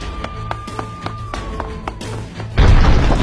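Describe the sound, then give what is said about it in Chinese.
A sudden loud explosion in a crowded spot bursts in near the end, a broad heavy roar that keeps going after a quieter rhythmic background of soft thumps and a steady tone. “不知道，刚好像有什么东西炸了一下，那边人太多了，我们走另一边。”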